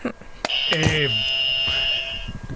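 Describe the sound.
A game show buzzer on a Spanish quiz sounds one steady, high electronic tone for about a second and a half, with a voice talking over its start.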